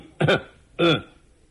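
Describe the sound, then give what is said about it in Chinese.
A man's voice imitates an old man clearing his throat, two short, rough, voiced bursts, the second slightly longer, followed by quiet. “老头清了清嗓子”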